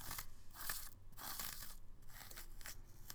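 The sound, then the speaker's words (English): A pumpkin is scraped out for carving: faint, rough scraping and crunching strokes come in several uneven bursts, each a fraction of a second long. “So enjoy the pumpkin scraping sounds in the background.”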